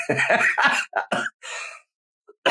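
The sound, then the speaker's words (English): A person has a coughing fit: several harsh, rasping coughs come in a quick irregular run, a short silence follows, then one more cough starts at the end. “pasta cough. There it is.”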